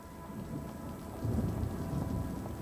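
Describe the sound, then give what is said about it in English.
Rain pours steadily on a stormy night in the city, a soft continuous hiss under a low roll of thunder that swells midway and lingers, with no voices. “Stormy night in the city. Rain, police sirens.”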